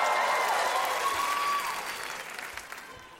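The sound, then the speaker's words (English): A comedy show audience cheering and applauding, loud at first with whoops over dense clapping, then easing after about a second and a half into lighter, scattered claps. “Make some noise if you love oxtails.”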